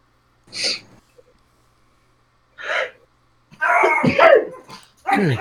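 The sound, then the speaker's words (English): A dog barks in a few short, separate bursts with quiet gaps between them. A longer, rougher run of barking follows, then one final burst at the end. “Gosh, dog. They know not how. They only know bark.”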